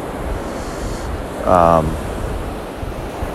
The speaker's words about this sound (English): That noise you hear in the background is the waves crashing against the sand.